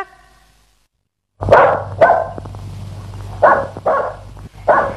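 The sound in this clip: Dog barking: after a brief silence, a few loud, sharp barks come at uneven intervals over a low steady hum.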